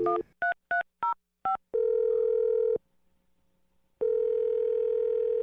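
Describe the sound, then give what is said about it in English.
Five quick touch-tone beeps from a telephone keypad as a number is dialed, followed by a steady tone that cuts off, a quiet pause, then the same steady tone returning, with no voices. “We're going to dial the number.”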